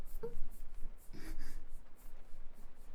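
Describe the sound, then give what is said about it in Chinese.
Faint rubbing as something is wiped to remove a mark: many quick, rhythmic back-and-forth strokes with a soft, scratchy texture and no talk. “帮你擦掉”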